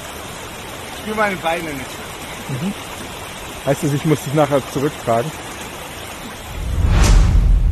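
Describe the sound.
Steady rush of a cold mountain stream runs beneath people talking, with a louder broad surge of water noise near the end.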